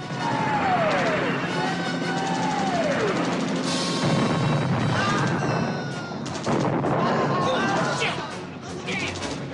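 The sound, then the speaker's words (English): A battle scene in the Vietnam War, with U.S. soldiers under fire in a quarry and grenades going off behind them. The din is continuous and loud, made of crashing bursts and gunfire-like cracks layered over a dense rumble. “Grenades explode behind the soldiers.”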